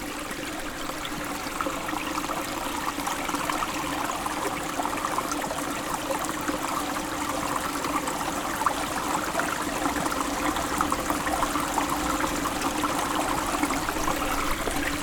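Clear flowing water, a steady, even rush and trickle that holds unchanged throughout with no voices.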